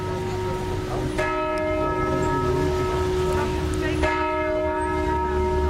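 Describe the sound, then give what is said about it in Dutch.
Church bells ringing loudly, with two clear strikes about three seconds apart, each followed by a long humming ring that carries through to the next. “De klokken, de kerkklokken van de Sint-Jozefkerk.”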